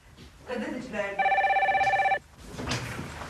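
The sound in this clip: A telephone bell rings in one steady, warbling trill lasting about a second, with people talking just before and after it.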